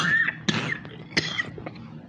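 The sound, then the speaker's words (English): A few coughs from a person with phlegm in the throat, two sharper hacks standing out among smaller throat bursts, all over a steady low background hiss. “sorry, I didn't mean to cough in y'all's ear. It's just something that came out.”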